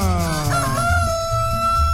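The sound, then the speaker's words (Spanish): A rooster crows loudly in one long, harmonic-rich call that starts strained and slightly falls in pitch before holding steady to the end. “¡Suelta de gallo a Cartagena!”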